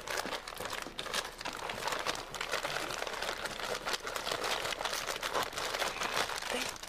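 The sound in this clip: Paper crinkles and rustles as a gift-wrapped present is unwrapped, a faint, steady stream of soft crackling with small bursts of tearing and crumpling throughout.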